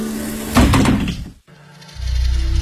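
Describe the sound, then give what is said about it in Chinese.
A bus door closes: a loud, noisy burst with a few knocks, then a brief silence, and a low steady hum rising after it. “大巴车关上了门。”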